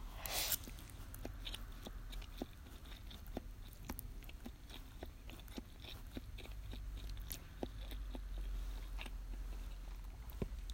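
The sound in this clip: Someone chews tarako (cod roe) pasta close up. Many soft, wet clicks and crunchy bites follow in a loose, steady rhythm, with no talking.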